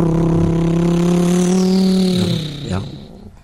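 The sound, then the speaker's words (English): A car engine drones loudly and steadily, then sags in pitch near the end and surges briefly before fading out. “Or maybe he's getting into a car right now and it sounds something like this.”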